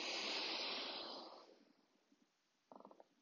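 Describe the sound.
A breath drawn in during a guided breathing exercise: a broad, airy hiss that starts strong and fades away over about a second and a half, then quiet.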